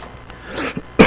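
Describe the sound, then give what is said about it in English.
A short, harsh cough bursts out loudly at the end, after about a second of soft, breathy noise. “Excuse me for coughing.”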